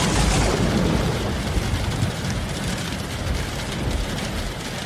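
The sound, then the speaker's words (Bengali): Heavy rain pours in a steady, dense roar that stays loud and continuous throughout, with no voices or other distinct sounds above it. “বৃষ্টি কিন্তু থামল না, আরো বেড়ে গেল।”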